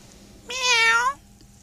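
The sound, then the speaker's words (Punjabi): A cat gives a single clear meow, a bright, slightly wavering cry lasting under a second against a quiet background. “ਸਤਿ ਸ਼੍ਰੀ ਅਕਾਲ ਮਾਣੂ ਬਿੱਲੀ.”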